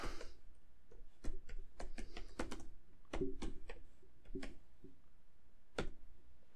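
Typing on a computer keyboard: many quick, irregular key clicks in uneven bursts with short pauses, fairly faint and without talk.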